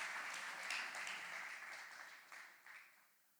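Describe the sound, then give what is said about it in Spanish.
Applause rises during a church worship service, faint and even at first, then breaking into a few scattered claps before dying away. “Démosle un fuerte aplauso al Señor por nuestro equipo de producción.”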